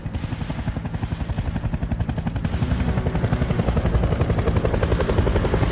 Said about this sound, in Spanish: Dos helicópteros sobrevuelan el muro